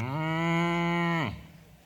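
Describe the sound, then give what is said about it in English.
A voice imitates a cow mooing: one long, steady, low moo held for over a second, then sliding down in pitch as it fades out. The voice is heard alone. “So I listened intently. The cow goes,”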